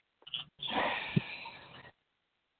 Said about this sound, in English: take a breath in through your nose and out through your mouth.